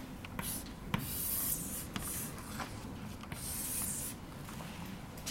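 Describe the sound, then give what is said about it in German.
Handwriting scratches as a formula is written out during a German physics lecture on orbital mechanics: soft, rough strokes and rubbing that run almost continuously, with a few sharper taps between them. “Ja, wir haben jetzt hier μ eingesetzt. Ich schreibe das nochmal hin.”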